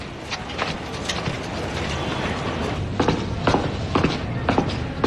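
Footsteps of someone walking away: evenly paced steps about half a second apart over constant background noise, clearer in the second half.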